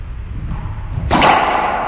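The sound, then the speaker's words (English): A golf ball struck on a drive: one sharp, bright swish-and-crack just past the midpoint, standing out over a steady low rumble of background noise. “I don't want to quit hitting it while I'm still hot. So I hit it again.”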